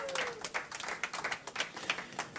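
Applause from a radio show audience for two friends at a dedication, made of many sharp, irregular hand claps that come fairly quietly and alone, with no voices over them.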